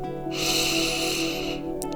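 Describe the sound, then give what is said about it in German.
A deep inhale taken during a guided breathing exercise: one smooth, airy hiss through the nose lasting about a second and a half, rising quickly and tapering off, over soft sustained background tones. “Nun atme für 4 Sekunden tief ein.”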